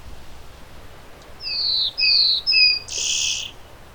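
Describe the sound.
A bird that catches insects between bursts of song sings a short phrase of four high, clear whistled notes. The last note is broader and buzzier, and all of them sit over a steady background hiss.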